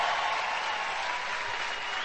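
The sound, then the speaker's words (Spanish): Crowd applause at a live Christian music concert in Phoenix, Arizona, greeting a string section: a brief, steady burst of many hands clapping, fairly soft, lasting about two seconds. “Un aplauso para ellos, por favor.”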